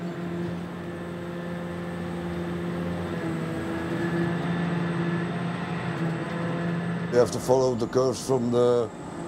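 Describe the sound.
Steady low engine drone of an excavator digging soil to widen the Kiel Canal for large ships, a continuous rumble with a voice speaking briefly near the end.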